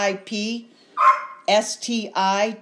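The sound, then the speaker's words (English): A dog barks several times in quick succession, loud, harmonic barks mixed with higher yipping cries, coming in short clustered bursts with brief gaps between them. “Should they include the barks in the web address? I'm about to strangle my dog.”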